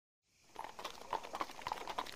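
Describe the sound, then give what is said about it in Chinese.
Hooves of a horse pulling a carriage clop in a quick, uneven patter that fades in from silence and stays fairly faint, with a few sharper strikes standing out. “马车忽然一个急刹车，马儿发出嘶哑的长鸣”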